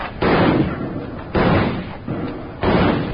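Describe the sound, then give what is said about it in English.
Three rifle shots ring out in a western shootout during a Shawnee raid, spaced roughly a second apart. Each is a sharp, loud crack with a short, rough decaying tail. “Hold your fire. They stopped shooting.”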